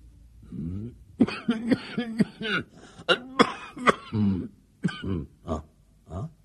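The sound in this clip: A man coughing, a long run of many harsh, voiced coughs and throat-clearing grunts that come in quick bursts, some close together and others spaced by short pauses, loud and alone with no speech.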